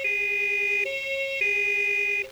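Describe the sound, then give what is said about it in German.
An emergency vehicle's two-tone siren sounds near a street corner known for car accidents. It switches steadily back and forth between a lower and a higher note, loud and continuous throughout. “Als er die Sirene hört, fallen ihm die vielen Autounfälle unten an der Ecke ein.”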